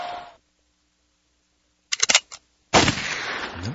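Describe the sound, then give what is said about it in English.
Gunshot sound effect: a short clatter of mechanical clicks, then a loud, sharp blast that trails off in a rumbling decay. “That would be a thank you, Jesus, and a gunshot.”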